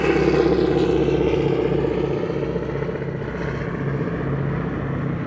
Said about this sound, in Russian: Над крепостью кружит самолет.